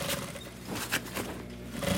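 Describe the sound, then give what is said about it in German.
An old sewing machine runs as a worker stitches thin fabric onto elongated, foot-shaped carpet pieces, giving a continuous rattling whir with quick repeated mechanical pulses. “Eine Mitarbeiterin näht an einer alten Nähmaschine dünnen Stoff auf längliche Teppichstücke in Form eines Fußes.”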